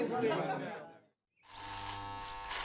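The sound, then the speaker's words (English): An electric razor buzzes steadily during a shave, a continuous droning hum with a low, even pitch that starts after a brief silence. “I'm shaving.”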